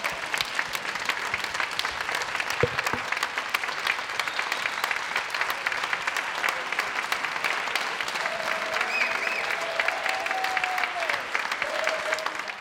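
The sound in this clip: A standing ovation greets the announcement that France's women's and men's ice hockey teams will play at the Paris 2024 Olympics: sustained crowd applause, fairly soft and unbroken for about thirteen seconds.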